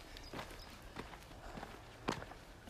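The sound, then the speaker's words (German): Faint footsteps of someone walking up a small hill on an outdoor walk by the water: a few soft, evenly spaced steps at a steady walking pace, with no talk. “So, jetzt gehen wir ein kleines Hügelchen hoch.”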